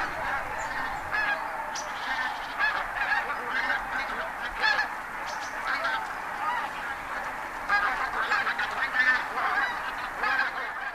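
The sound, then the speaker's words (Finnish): A large flock of geese, travelling with swans, honks continuously as it flies over farm fields around sunset. Many overlapping nasal calls form a steady, dense chorus throughout. “Illalla satojen joutsenten ja 10 000 hanhen jatkuva ilmavirta kulkee tuolta peltoalueelta pihan yli”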